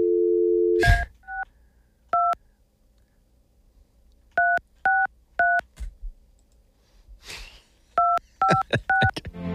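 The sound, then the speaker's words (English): Telephone keypad tones dialing a number: a steady dial tone cuts off, then many separate touch-tone beeps come in uneven bursts with pauses, mixed with faint clicks and brief rustling. “All right, here we go. I will now dial her number.”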